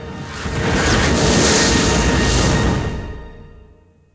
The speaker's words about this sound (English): The huge fragments blast through the clouds.